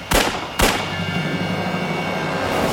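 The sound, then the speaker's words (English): Gunfire during a police shootout with an armed suspect: two sharp, loud shots about half a second apart, followed by a steady hum that lingers to the end. “I have been shot at and I have hit the subject. Meacham draws rapidly and returns fire.”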